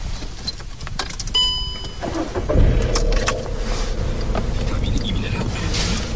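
Keys jangle briefly, then a car engine comes to life and settles into a steady low rumble as the vehicle pulls away at the start of a driving lesson.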